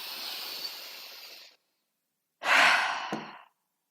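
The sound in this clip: Long, slow breaths released during a tension-relief exercise: two soft, airy, hissing breaths separated by a clear silent pause, the second louder and fuller, no talking.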